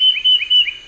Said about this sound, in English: That's the song of the Tufted Titmouse.